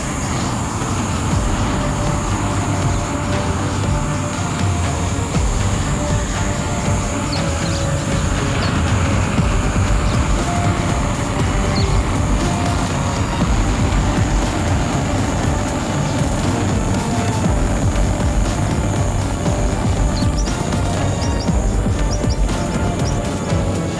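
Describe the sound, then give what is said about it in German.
A rescue transport aircraft taking off in a science-fiction radio drama, heard as a loud, dense, unbroken engine roar that stays steady for more than twenty seconds. “30 Minuten später startet der Rescue-Transporter mit dem Team an Bord und geht auf Kurs Venezuela.”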